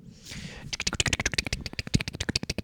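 Ticking of a spinning prize wheel: a brief soft whoosh, then many rapid, evenly spaced sharp clicks, fairly quiet throughout.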